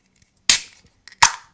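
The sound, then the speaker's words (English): A can of soda being opened: two sharp, loud pops, each followed by a short fizzing hiss that fades, with quiet gaps between them. “Ooh, tin a pop. I feel like there needs to be a Diet Coke break”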